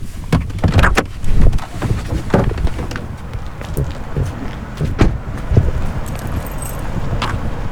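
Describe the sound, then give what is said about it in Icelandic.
Someone stepping out of a car outside a church: keys jangling, a door clunking and scuffing footsteps over a steady rumbling background, with scattered sharp clicks and knocks throughout. “Ég ætla núna að stíga út í bílnum og kynna mér aðstæðnir aðeins betur.”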